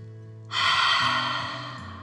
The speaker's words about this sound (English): Now relax and take a deep dragon breath in and out.